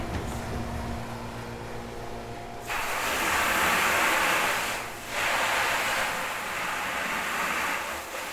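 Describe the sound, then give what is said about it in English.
Water rushes steadily into a jug being filled with cleaning solution for washing out tanks. A low hum comes first, then the loud, hissing flow starts and carries on, dipping briefly midway before resuming. “Oh, I'm just filling up a jug to put some cleaning solution in to clean out these tanks.”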